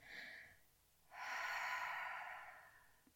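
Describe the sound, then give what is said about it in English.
Deep breaths taken slowly during a calm, guided breathing exercise. Two soft, airy breaths are heard: a short first one, then a longer, steady rush of air that swells and fades. There is no talk. “take 3 deep breaths”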